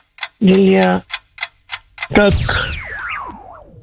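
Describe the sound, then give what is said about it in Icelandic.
A quiz game clock effect: a few crisp ticks sound alone, broken by a sustained buzzy tone, then a long whistling sweep that warbles and slides steadily lower as it fades. “Já, nú er klukkan komin í gang, sko.”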